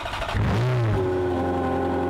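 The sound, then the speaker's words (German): A Ferrari Scuderia limited-edition sports car engine revs briefly with a rising pitch, then settles into a steady, even drone. “Ein Ferrari 403 Scuderia limitierte Auflage.”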